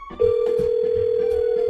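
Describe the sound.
Ringback tone of an outgoing telephone call: a single steady mid-pitched tone starts abruptly and holds level to the end, loud and unbroken, with faint muffled knocks beneath it.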